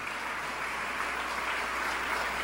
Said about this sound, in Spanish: Dale aplausos al Rey de Reyes y al Señor de Señores.